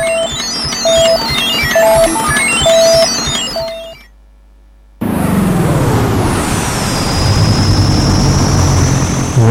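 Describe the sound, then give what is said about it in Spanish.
An airplane landing sound effect: a loud, sustained engine roar with a high whine that slides downward in pitch. It follows a few seconds of rhythmic electronic beeping and a short silent gap. “Por favor, dale al botón verde que así vamos aterrizando.”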